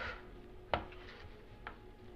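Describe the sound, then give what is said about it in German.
Knife cutting a 15 cm piece lengthwise on a cutting board, two distinct clicks of the blade meeting the board, the first sharper and louder, over a quiet background. “Ich schneide mir mal so ungefähr 15 cm langes Stück ab. Schneide es längs durch.”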